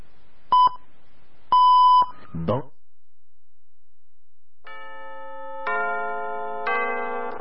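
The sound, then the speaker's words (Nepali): Radio time signal beeps: a short beep and then a longer beep at the same pitch, followed by a brief chirp and sustained tones that sound like music. “सहिनो समय सूचक अहिले बिहानको 10 बज्यो”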